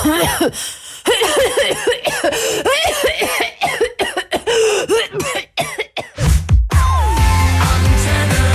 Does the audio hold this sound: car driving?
no